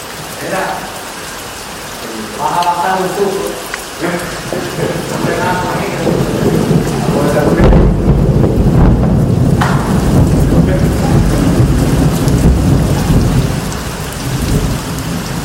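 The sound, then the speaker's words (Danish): Heavy rain and thunder from a passing hurricane, heard from a balcony: a dense, steady roar of rainfall runs throughout, with deep rumbles of thunder and a louder, swelling crack partway through. “Så I får lige et par minutters regnvejr og tordenvejr, som det lyder fra vores balkon.”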